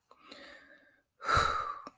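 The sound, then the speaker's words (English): A deep breath picked up close by a microphone: a soft, airy stretch of breathing, then a louder rush of air after a short pause. “I keep forgetting I can't do deep breaths like that because the mic picks up everything.”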